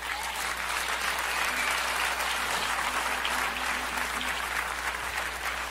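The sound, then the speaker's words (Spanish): Sustained applause fills a church service, a dense, steady wash of clapping from the audience that holds at an even loudness throughout without breaking. “Si ese aplauso es para mí está bueno, pero si es para Dios tiene artritis.”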